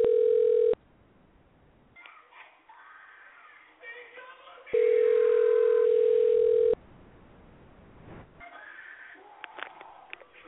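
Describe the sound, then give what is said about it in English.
An outgoing phone call to a store produces a steady, mid-pitched ringback tone, first briefly and then again for about two seconds, with voices and other sounds between the tones. “So I'm dialing it right now. See if they answer if they're still open.”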